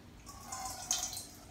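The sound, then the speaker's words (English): Water poured from a vessel over the right hand during a Jewish ritual morning hand washing: a soft, faint trickling splash that lasts about a second. “So we take the vessel of water and pour over the right hand,”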